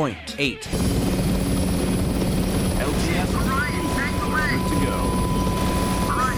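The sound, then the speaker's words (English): A helicopter in a video game gives a steady, thudding rotor drone throughout. After a brief voice at the start, chirping electronic beeps and a sustained tone sound over the drone. “Chopper at 6 o'clock”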